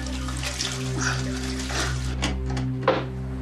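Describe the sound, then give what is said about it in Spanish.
Running water as a man rinses his eyes after being sprayed, a steady splashing flow with a few brief louder splashes over a low, constant hum. “Le rocía con spray y se va. Él se lava los ojos.”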